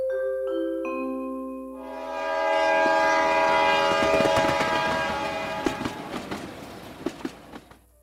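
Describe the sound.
An express train departs: steady horn-like tones sound at the start, then a broad rumbling roar builds and holds, with sharp rhythmic clickety-clack rail clicks growing clearer toward the end.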